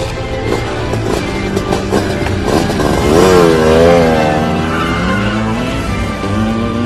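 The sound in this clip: A loud motorcycle engine revving in an audio drama: a steady engine drone swells midway with a rev that climbs and falls in pitch, then settles back to a rough drone.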